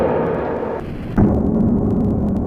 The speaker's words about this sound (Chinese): 在加热1分钟之后拿出，消防员轻轻触碰鸡蛋，发生了爆炸。